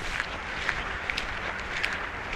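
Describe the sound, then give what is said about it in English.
Running footsteps crunch on a packed-down path of very fine gravel that stays firm even in rain, giving a faint, steady rhythm of soft scuffs over a low hiss. “it's like a packed down gravel. So even on rainy days when I go running through here, it's not muddy. It's like really fine gravel. You can kind of hear it underneath my feet.”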